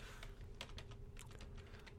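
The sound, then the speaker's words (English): Typing on a computer keyboard: a quick, uneven run of many light keystrokes, faint over a steady low hum. “I'm gonna type this in here so we don't forget.”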